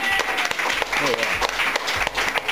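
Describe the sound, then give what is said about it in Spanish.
Applause following a live musical performance, a short spell of brisk clapping with voices heard over it, lasting a couple of seconds. “Gracias por escuchar, por el aplauso.”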